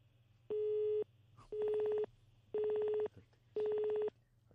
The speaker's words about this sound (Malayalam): Phone കട്ടായെന്ന് തോന്നുന്നു.